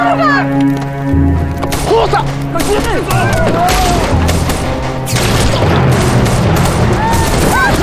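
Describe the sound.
Gunshots ring out in a tense armed standoff, heavy booms and cracks firing in a dense volley over shouting voices.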